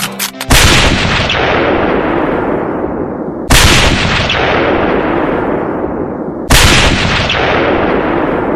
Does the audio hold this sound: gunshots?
yes